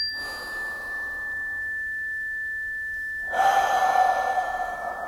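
Guided breathing: a soft, airy breath in through the nose and then a louder, rushing exhale out through the mouth, with a steady pure tone sustained underneath throughout.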